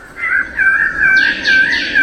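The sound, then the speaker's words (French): Birds of paradise sing at a Paris exhibition, their loud whistled calls held on a steady pitch and joined later by a few sharp, rising whoops. No talk is heard over them. “Le chant des oiseaux de paradis accompagne les visiteurs tout au long de la visite.”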